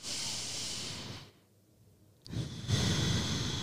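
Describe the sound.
One person takes a slow, deep breath as a calming exercise, giving a loud airy hiss, then a brief quiet pause, then a long, forceful breathy exhale. No words are spoken.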